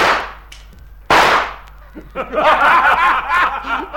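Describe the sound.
A rifle shot cracks out as one sharp, loud burst, followed by a run of excited voices.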